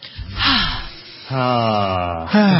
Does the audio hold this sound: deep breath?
yes